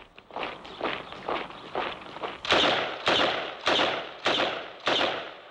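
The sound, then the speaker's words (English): Two people run, producing a steady series of heavy, thudding footfalls with short decays; the steps grow louder and sharper partway through and continue at an even pace. “they run to catch up.”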